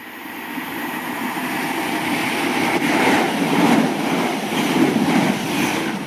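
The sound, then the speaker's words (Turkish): A train rumbles at Didcot railway station near Oxford. The steady rolling noise swells and eases in a few broad waves over its length, with no voices. “Oxford'un biraz dışındaki Didcot adlı kasabanın en meşhur yeri demiryolu istasyonu.”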